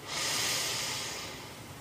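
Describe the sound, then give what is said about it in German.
A deep breath drawn in during a guided relaxation exercise: one soft, airy inhale that swells quickly and then tapers slowly, heard alone without talk. “Und dann atme nochmal tief ein.”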